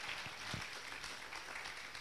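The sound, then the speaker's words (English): Congregation clapping hands during a church service: a steady, dense patter of applause, fairly faint and even throughout, with a couple of sharper claps standing out near the start. “In the name of Jesus, clap your hands to the word of the Lord”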